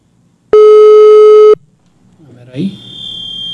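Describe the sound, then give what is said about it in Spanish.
A telephone line tone sounds while a call is being dialed: one loud, steady mid-pitched tone lasting about a second. A fainter high-pitched tone follows and holds steady, with a brief voice-like sound at its start. “En este momento nos vamos a enlazar con mi compañero. A ver, denme un segundo. Ahí le estoy marcando a Gilberto.”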